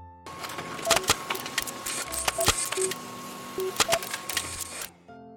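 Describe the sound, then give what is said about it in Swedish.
A printer prints out a story, whirring and clattering with irregular mechanical clicks, short tonal blips and a steady hum running for about five seconds before it stops. “Nu får ni hänga med på äventyret. Jag skriver ut den här.”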